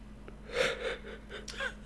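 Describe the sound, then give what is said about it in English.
A person yawns quietly: a soft, breathy drawn-out intake of air, then a fainter, shorter breathy sound a moment later. “Stop yawning. I can't help it. I always yawn.”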